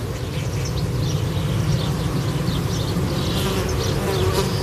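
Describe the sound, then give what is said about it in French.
Insects swarming inside an insect hotel on a very hot day, picked up with a parabolic microphone: a dense, unbroken buzzing drone with faint, higher chirps flickering above it. “Et donc là, vous approchez votre parabole de l'hôtel à insectes. On entend quand même que ça grouille, hein.”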